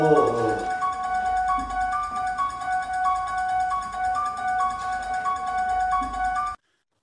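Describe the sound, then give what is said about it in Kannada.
A mobile phone ringing with a repeating electronic melody, steady and clear at a moderate level, cutting off abruptly just before the end. “ಈ mobile ಹೊಡ್ಕೊತಾ ಇದೆ ನೋಡ್ರಿ mobile ring ಆಗ್ತಿದೆ ಸ್ವಲ್ಪ ನೋಡಿ”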